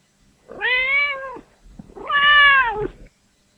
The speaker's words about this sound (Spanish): Este es un gato que quiere jugar. Y aquí tenemos a otro.